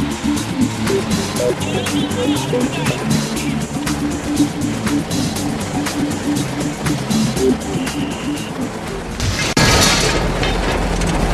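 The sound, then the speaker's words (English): A pickup truck's clutch explodes after its engine has been thrashed during a wheat harvest. A steady, loud mechanical drone with rattling runs for several seconds before one sharp, violent bang near the end, followed by a harsh rushing noise. “With smoke billowing from their machine, the technos abandon ship. What's that? Is that the... The clutch? The pickup's clutch has exploded after Tim thrashed the engine,”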